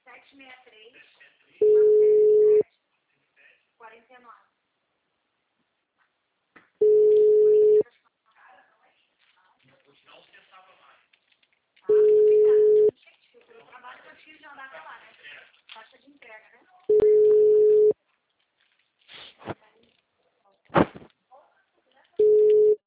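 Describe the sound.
A telephone ringing tone sounds while a call waits to connect: four steady, identical mid-pitched beeps at even intervals of about five seconds, with talking in the gaps between them.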